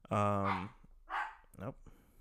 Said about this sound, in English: Now the dog's barking. God damn. I'm going to ignore the dog